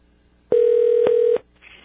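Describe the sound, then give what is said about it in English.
Telephone ringing tone on a call to a phone in Wisconsin: one steady, mid-pitched electronic tone of under a second, with a faint click partway through, then near silence. “That's the sound of his phone.”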